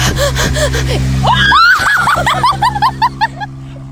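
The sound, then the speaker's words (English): A person screams: loud, high, rising cries break out over a steady low hum, then give way to a run of short, sharp gasping bursts that fade out. “Why did you scream?”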